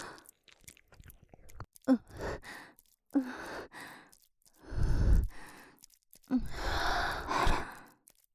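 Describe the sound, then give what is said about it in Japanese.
Heavy, breathy panting and sighing from a person, a few loud exhalations separated by quiet gaps, the later breaths longer and more drawn out, with no talk. “激しい呼吸を始めてしまいましたね。”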